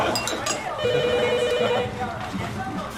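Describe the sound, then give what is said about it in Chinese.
A telephone rings once: a steady electronic trill lasting about a second over a busy, noisy background. “接电话去。”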